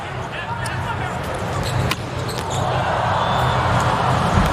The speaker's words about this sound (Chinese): 是，莱万斯基的发球，